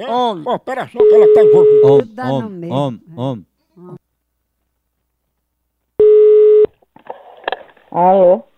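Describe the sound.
Telephone tone on a call line, sounding as two long, steady, loud tones separated by a pause, with people talking before, between and after them.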